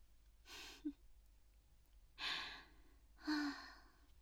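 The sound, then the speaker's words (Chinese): Three heavy, panting breaths, breathy bursts spaced irregularly and fairly faint, heard alone; the first and last each end with a short voiced catch in the throat. “大口大口的呼气呢，看来这一次很舒服呀。”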